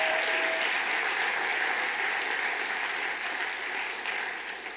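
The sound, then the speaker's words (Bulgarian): A church audience applauds during a sermon, a dense, sustained wash of clapping from many hands that holds steady throughout and eases slightly toward the end. “Ръкопляски, ако вярваш, че това, което проповядваме е истина.”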